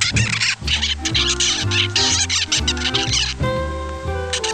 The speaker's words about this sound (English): And this is the rather less predictable sound of a baby bird.